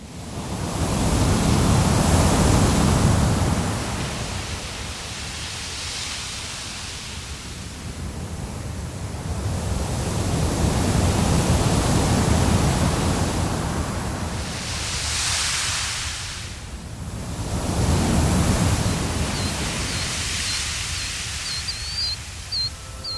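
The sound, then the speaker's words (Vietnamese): Waves of a vast open sea lap against the shore in a steady hissing wash that swells and ebbs over a few slow surges, with no voices. “Trước mặt anh là biển đông bao la bát ngát, từng đợt sóng nối tiếp nhau vỗ vào bờ ì oạp.”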